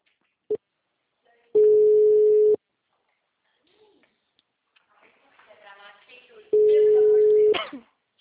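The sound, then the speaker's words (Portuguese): A telephone rings out as someone calls again, with a brief click and then two long, steady ringback tones of even pitch, each about a second long. Quiet voices can be heard in the gap between the tones. “Vou ligar pra ele de novo.”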